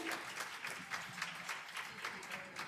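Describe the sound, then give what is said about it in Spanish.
Applause from an audience at a presentation of performing-arts stage workers, faint, steady clapping that continues throughout. “Y un aplauso.”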